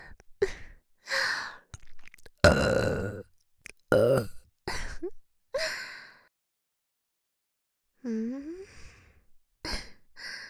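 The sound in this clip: Burps and breathy sighs come right at the ear, in several short bursts separated by pauses and one longer silence.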